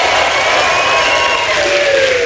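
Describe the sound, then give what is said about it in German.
Applause and cheering from a live show audience: a dense, steady wash of clapping and crowd noise that holds at an even, loud level from start to finish. “Okay, und ihr dürft mit Recht den Applaus gleich nochmal steigern für unseren nächsten Gast”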